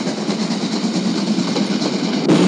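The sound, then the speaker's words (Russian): A steam locomotive hauling a military train runs through a narrow rocky pass. Its loud, continuous rumble and rhythmic clatter stay steady throughout, with a slight change in tone just before the end. “Входит в тоннель. Из темноты паровоз вырывается на солнце. Подходит к станции.”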